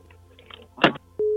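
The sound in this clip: A telephone busy tone on a call-in line after the caller hangs up: a short noisy click, then one steady mid-pitched beep that cuts off cleanly.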